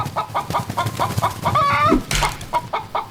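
A hen clucks in a quick, regular series of short, fairly loud clucks, broken midway by one drawn-out squawk before the clucking resumes.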